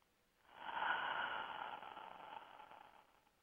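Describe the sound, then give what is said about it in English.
One slow deep breath, a soft, airy hiss that swells quickly and then gradually fades over about three seconds, quiet and alone with no talking. “we do that most easily by taking a deep breath with the intention to call ourselves forward into this present moment. Deep breath.”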